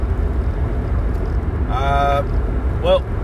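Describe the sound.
Steady low road and engine rumble inside a car on a drive to work, continuing evenly through the whole stretch with no clear changes.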